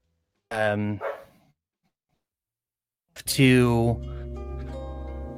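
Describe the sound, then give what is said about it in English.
Dogs barking: after a brief stretch of talk, a loud, whining bark with falling pitch rings out, followed by steady background noise. “dogs are barking”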